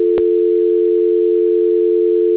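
Steady telephone tone during a call transfer, one loud unbroken hum with a single sharp click just after it begins.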